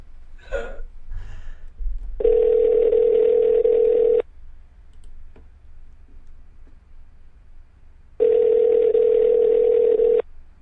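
A telephone call ringing out while waiting for an answer: two long, steady ring tones of about two seconds each, separated by a pause of roughly four seconds.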